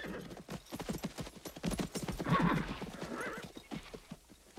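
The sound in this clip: Horses with riders gallop into a forest clearing, many loud, rapid hoof beats clattering throughout, with a horse's neigh rising among them.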